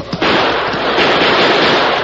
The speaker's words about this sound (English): I'm shooting at the ceiling of that tunnel. Let those rats dodge a hail of chipped stone. Here's some more!